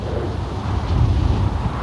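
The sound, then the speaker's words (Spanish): Wind blows in a steady, low, rumbling roar that swells slightly midway, in a dramatized outdoor scene beside a burning funeral pyre. “¡Maldito viento!”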